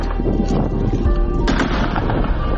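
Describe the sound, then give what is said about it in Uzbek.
Warning shots fired into the air by soldiers, several gunshot cracks buried in dense, continuous rough noise that stays loud throughout. “Mo'ljalga oluvchimga komanda berdim, osmonga qarata bir necha marta o'sha ogohlantiruvchi o'q uzdi.”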